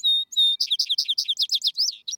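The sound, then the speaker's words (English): Vesper sparrow song: two clear high whistled notes open it, followed by a rapid run of many short chirping notes in a lively, bright trill. “They sing much after sundown, hence the aptness of the name Vesper Sparrow,”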